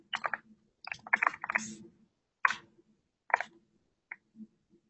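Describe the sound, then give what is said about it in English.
Keyboard typing heard as faint, irregular clusters of sharp key clicks, a few quick bursts separated by short pauses. “can listen to me type. That's a great way to kill time.”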